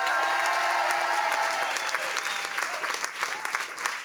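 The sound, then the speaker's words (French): Audience applause and cheering greet a guest performer at a live show, a dense, steady roar of clapping that stays loud throughout and eases slightly toward the end. “faites du bruit pour Amrex, s'il vous plaît.”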